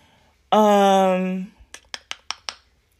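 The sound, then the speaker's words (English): Someone types a search on a computer keyboard: five crisp key clicks come in a quick, even sequence. They follow a sustained harmonic tone that lasts about a second. “Let me just type in summer retrograde.”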